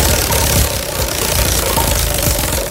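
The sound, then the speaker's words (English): A prize wheel sound effect spins with a loud, steady, rapid rattling clatter that runs without pause for about three seconds. “Let's spin the wheel. I got my little sound effect too because my wheel is silent.”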